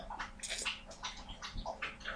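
Wet sipping and gulping of a person drinking water, picked up close by microphones, forms a string of short, soft, splashy bursts with no talk over it.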